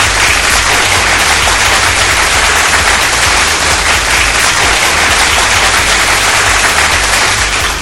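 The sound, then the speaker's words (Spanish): Loud, dense applause fills the whole stretch in a steady, unbroken roar of many clapping hands, with no talk over it. “Muchísimas gracias, un fuerte aplauso, por favor.”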